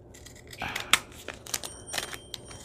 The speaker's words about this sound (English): So I folded it in half. Did you see that? It's like this. There's my fold. I just folded it in half backwards. And then I gave it.